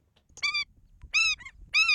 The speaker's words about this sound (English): That's the sound of the Indian skimmer, a unique orange-billed water bird.